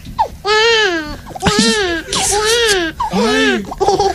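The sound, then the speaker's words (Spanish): A person's voice imitating a crying baby: several loud wailing bursts with a wavering, quivering pitch, broken by short pauses, sounding much like an infant's cry. “Yo sé hacer como si llorara un bebé.”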